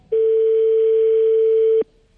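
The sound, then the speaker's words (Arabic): A single steady telephone ringing tone sounds alone, one unbroken mid-pitched beep lasting under two seconds before it cuts off cleanly. “كان الرقم يرن”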